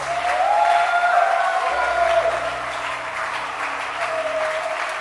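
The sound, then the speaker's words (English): A church audience clapping their hands, with continuous, full clapping holding an even level across the whole stretch. “Clap your hands.”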